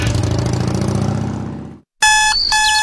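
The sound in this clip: An electronic alarm clock rings in rapid, bright beeping bursts after a dense droning tone fades out and a moment of silence.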